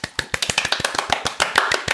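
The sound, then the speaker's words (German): Brief applause of quick, evenly spaced hand claps, many in a steady rapid rhythm, crisp and moderately loud with no talk over them, given in celebration of someone being named a Java Champion. “jetzt brauche ich nur eine dritte Person, die hier so ein bisschen applaudiert für uns.”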